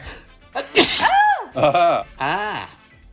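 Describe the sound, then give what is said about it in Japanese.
A single loud, sharp sneeze bursts out, followed by a strained voice making drawn-out vocal sounds. “うぅくしゃみすごい”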